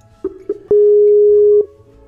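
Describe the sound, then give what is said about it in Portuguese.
A Skype call tone sounds as an outgoing call connects: two short blips, then one long, steady, loud mid-pitched tone that cuts off, heard alone without talk. “Mas vamos ver se eu, se eu chamo aqui o GG, vamos ver se vai ligar.”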